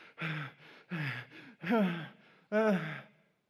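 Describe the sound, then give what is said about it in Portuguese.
A person imitates heavy breathing with a few long, voiced, breathy exhales that sound like groaning sighs. Each one wavers in pitch and is separated by short pauses, and the sound is fairly quiet overall. “eu pensei, ele está respirando muito, né?”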